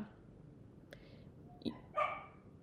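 Faint whimpers and short yips from a female dog unhappy about having to take a nap. A few brief, high, thin cries come one after another over a quiet background.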